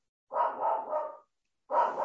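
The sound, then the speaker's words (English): A dog barking in two quick bursts, a run of rough, mid-pitched barks, a short pause, then more barks, loud and alone with no talk. “Apologies about my dog.”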